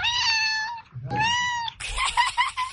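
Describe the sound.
A cat meowing: two clear, tonal meows in quick succession, then a rougher, raspier cry, fairly loud with nothing else behind them.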